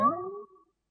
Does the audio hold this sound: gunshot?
no